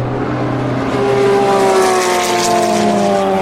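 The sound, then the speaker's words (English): Race cars pass, a Porsche 911 followed by a Nissan DeltaWing, as a loud, steady engine drone whose layered tones drift slightly downward in pitch. “That was a 911 followed by the Nissan Delta Wing.”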